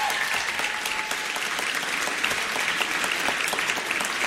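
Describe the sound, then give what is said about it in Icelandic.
Dense audience applause for a band contestant at a band competition, a loud, steady wash of many clapping hands that holds evenly throughout without talk. “Gefum henni gott klapp og stilla ykkur svo fyrir mynd.”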